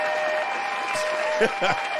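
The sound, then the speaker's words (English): A round of applause, with steady crowd clapping filling the whole stretch and a brief vocal cheer rising over it near the end. “Find him, lock him down, and give him a round of applause.”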